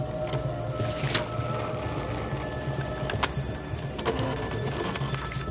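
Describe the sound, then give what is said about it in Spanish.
A printer prints out a photo with a steady mechanical whir and hum, broken by a few sharper clicks and ticks as the paper feeds through. No one speaks. “De la impresora sale una foto de él con Abby”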